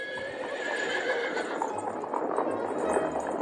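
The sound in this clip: A horse neighs and whinnies while its hooves clip-clop at a trot, fairly faint and alone.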